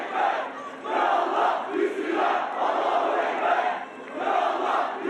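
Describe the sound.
Supporters chant slogans in unison at a polling station in Istanbul during an election. The loud, dense crowd voices surge in steady rhythmic waves with only brief dips between phrases.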